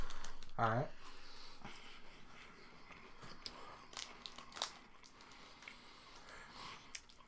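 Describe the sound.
Crunching of a dark chocolate Kit Kat wafer bar being eaten, a few crisp bites and faint crackles alongside quiet voices.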